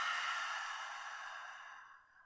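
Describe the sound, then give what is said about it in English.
A deep breath exhaled through the mouth during a guided breathing and relaxation exercise: a soft, breathy rush that slowly fades over about two seconds, with no talking. “Let's take a deep breath in through your nose. Exhale out the mouth.”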